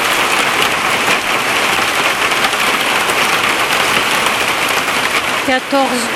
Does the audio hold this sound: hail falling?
yes